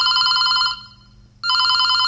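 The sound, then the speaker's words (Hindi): A bright electronic telephone ringtone signals an incoming call to a radio phone-in programme. It sounds as a loud, shrill, warbling ring, breaks off for a brief pause, then starts again. “एक और phone आ रहा है, लेते हैं।”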